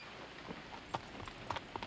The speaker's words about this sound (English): John releases the wagon's handbrake, and they head out.